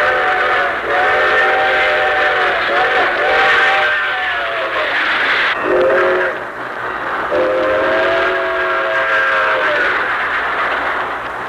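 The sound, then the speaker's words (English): A train rushes toward a big-city terminal by the Hudson River. Its horn sounds loud, chord-like blasts, several long ones separated by brief breaks, over a steady rumble of wheels on rails. “Drawn by the magnetic force of the fantastic metropolis, day and night great trains rush toward the Hudson River,”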